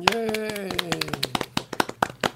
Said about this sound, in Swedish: Jag tycker att det är värt en applåd.